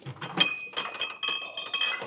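Beer glasses clinking in a late-night toast: a few bright, glassy clinks ringing lightly over soft handling noise, fairly quiet.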